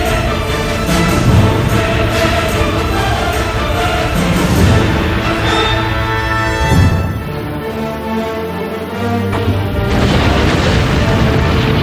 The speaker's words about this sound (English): For the bomber to have enough time to flee the explosion, they dropped the bomb via a parachute. To make the detonation stronger, the bomb was set to go off 576 meters above the ground.